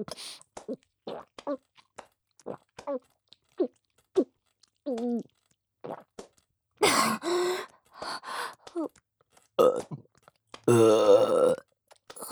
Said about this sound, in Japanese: また出る。ゲップが出ちゃう。